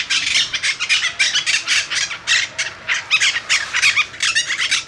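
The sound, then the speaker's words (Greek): Harsh, grating squawks of monk parakeets, one of the parrot species breeding inside Athens, repeat many times in quick, irregular bursts. The loud, raspy calls overlap with no talk. “Είναι η μειοψητακή, αυτή η μειοψητακή. Είναι ένα από τα τρία είδη παπαγάλου που αναπαράγονται στην Αθήνα μέσα.”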